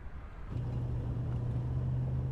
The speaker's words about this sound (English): Let's go. Frank drives with Claire.